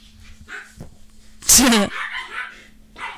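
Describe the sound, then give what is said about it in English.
Dogs tussle in another room. One loud, brief yelping burst stands out among low scuffling and muffled background sounds. “can you hear the dog tussle happening in the other room?”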